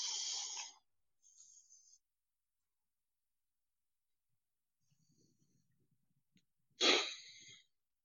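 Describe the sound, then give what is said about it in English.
Breathing exercise, in through the nose and out through the mouth: three airy breath bursts, a loud one at the start, a softer one just after and a strong one near the end, with faint low rustling in the quiet gap between. “when you breathe in through your nose, exhale through your mouth.”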